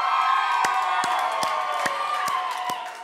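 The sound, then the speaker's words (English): A crowd of seventh and eighth graders shouts and cheers a loud welcome to sixth graders. The dense mass of young voices is studded with whoops and sharp claps and eases off slightly at the end. “I want all of our seventh and eighth graders to give them a huge M12 welcome. Shout as loud as you can on the count of three.”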